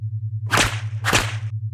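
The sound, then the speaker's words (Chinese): Two sharp whip lashes, loud and evenly spaced, crack one after the other over a constant low electrical hum, with no voices. “被鞭子抽很舒服吧？”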